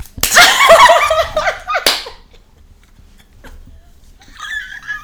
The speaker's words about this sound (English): You just hit me.